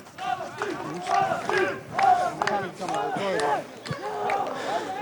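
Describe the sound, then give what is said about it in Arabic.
Crowd of protesters chanting "Palestine" in Arabic, many voices shouting in a repeated rhythmic pattern with raised, strained pitches, loud and continuous throughout. “اذا هتافات هنا فلسطينية”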